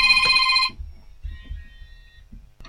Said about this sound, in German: Unglaublich. Da hat mir tatsächlich mal wer angerufen. Ich glaub's kaum.